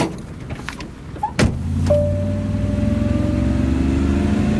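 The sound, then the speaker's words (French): A green Volkswagen combi van pulls up and its engine settles into a steady low idle with a faint whine. A few light clicks and one sharp thud come before the hum. “Palache Falvé voit un combi Volkswagen vert s'arrêter à quelques mètres. Le jeune touriste monte dans le véhicule.”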